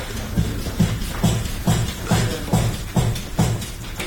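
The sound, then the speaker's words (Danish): Scissors snipping through hair on top of the head during a haircut, a steady, evenly spaced run of short, crisp cuts that repeat many times with no talk. “Nu har jeg jo startet med at klippe håret ovenpå”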